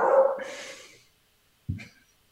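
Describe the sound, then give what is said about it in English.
A dog barks twice: a long, drawn-out bark that trails off, then after a pause a single short, sharp bark. No other sound between them. “see, even your dog is glad that you're in Dallas now. Yes, he is. He is. And he keeps on interrupting.”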